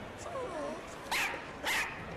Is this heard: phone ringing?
no